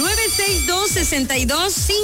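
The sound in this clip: The ringing tone of an outgoing WhatsApp call plays as a loud, steady pattern of quickly repeating melodic electronic tones.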